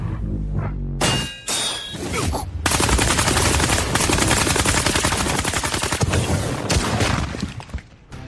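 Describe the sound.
Heavy gunfire while finishing off a monster in a video game: a few sharp blasts with ringing metallic clangs, then a long, dense burst of rapid automatic fire that keeps a steady, loud rattle almost to the end.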